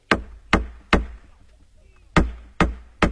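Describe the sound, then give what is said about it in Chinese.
Knocking on the gate of a nunnery late at night: two groups of three sharp, loud wooden raps at an even pace, separated by a short pause. “嘿，这一敲惊动了尼姑，急忙过来拉门栓，打开了山门”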